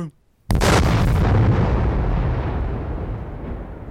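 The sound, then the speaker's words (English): A monster's head explodes in a sudden, loud booming blast after a moment of near silence. A long, rumbling decay follows and slowly fades. “The Arachnavoltron's head literally exploded from all the cringe.”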